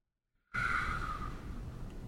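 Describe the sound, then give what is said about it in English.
A long, steady exhale of all the air from the lungs during a seated breathwork exercise, a soft breathy rush that starts abruptly after a short silence and holds evenly to the end. “gently let all your air out.”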